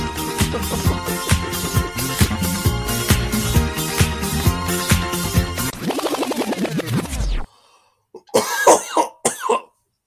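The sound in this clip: Coughing from a throat infection: a few rough, hacking coughs come in a quick cluster right after loud rhythmic music cuts off, then silence.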